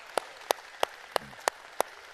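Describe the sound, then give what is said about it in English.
Hand claps from a church audience: seven sharp, crisp claps in a steady, evenly spaced rhythm over a quiet background. “Let's give God a hand clap. He's worthy. Come on. Don't patty cake. Give him a hand clap.”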